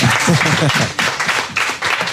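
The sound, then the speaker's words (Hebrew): Audience applause and clapping at a live show: a loud, dense burst of many hands with a few brief dips in level, and voices mixed in at the start. “הם מוכנים למחוא כפיים בכל רגע נתון. זה מטורף. עוד כפיים, סתם.”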